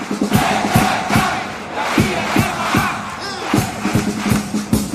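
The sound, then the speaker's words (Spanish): A theatre audience roars after a pasodoble ends, with loud, sustained cheering and shouting from the crowd. Bursts of rhythmic clapping run underneath on a steady beat. “Hemos querido dejar ahí la reacción del público a cómo han rematado este paso doble. Escuchen.”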